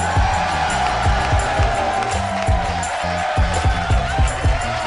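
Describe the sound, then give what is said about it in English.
A theater audience in Pittsburgh applauds and cheers to welcome a live show's host. Dense, loud, steady clapping is mixed with whoops and shouts and runs unbroken throughout. “Would you please put your hands together for the mayor of Harmontown, Dan Harmon.”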